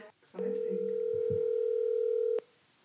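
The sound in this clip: A telephone ringback tone sounds while a call is placed: a single steady electronic tone held for about two seconds, then cut off abruptly.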